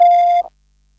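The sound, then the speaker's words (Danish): A voicemail beep tone sounds once after the recorded greeting: a single steady, mid-pitched electronic beep lasting about half a second, clear and loud, then cutting to silence. “Bitte hinterlassen Sie Ihre Mitteilung nach dem Signalton.”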